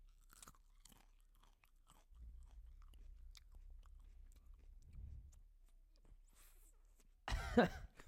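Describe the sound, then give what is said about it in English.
Faint crunching and chewing close to a microphone, with a few soft crunches and mouth noises over a quiet background, ending in a sudden loud coughing burst. “I want you to chew it and swallow it for this to count.”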